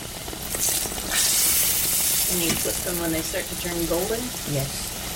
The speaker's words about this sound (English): The oil's nice and hot, so it's time to put the dough into the skillet.